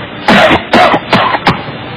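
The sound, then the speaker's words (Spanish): A man forces a few harsh, hard coughs in quick succession to fake a bronchitis cough. The bursts are loud and rasping with short gaps between them. “Tengo que toser más duro.”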